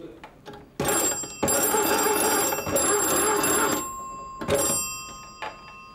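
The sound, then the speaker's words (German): A dispatcher's line telephone bell on the Schneeberg route rings out a Morse-style signal: one short ring, two long rings, then a final short ring. The metallic ringing is bright and loud, with no voices. “Und da haben wir die Morsecodes mit kurz, lang, lang, kurz.”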